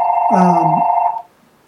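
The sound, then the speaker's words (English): A mobile phone rings once with a steady electronic tone and a brief warbling layer, lasting about a second before cutting off abruptly into near silence. “That's my phone.”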